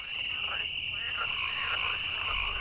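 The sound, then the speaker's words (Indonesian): Frogs and crickets singing at night after rain: a steady high chirring runs throughout, with repeated frog croaks rising and falling over it at moderate volume. “Nyanyian jangkrik dan kodok sehabis hujan membawa suasana yang syahdu.”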